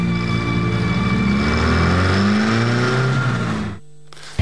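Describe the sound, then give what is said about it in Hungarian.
Steady engine drone of a car driving toward the sea, holding a sustained, slightly rising tone before cutting off abruptly near the end. “majd belehajtja az autót a tengerbe”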